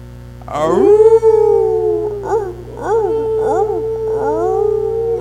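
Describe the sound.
A person's voice imitates a pack of wolves howling: one long sustained howl, then several shorter wavering yips, loud over a steady low hum.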